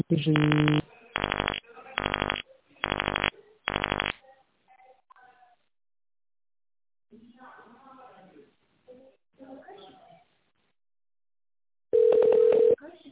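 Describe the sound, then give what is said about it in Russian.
Telephone keypad tones dialing an extension number: five even, fairly loud beeps in quick succession. Faint muffled voices follow, then one longer steady tone. “Если вы знаете добавочный номер сотрудника, наберите его.”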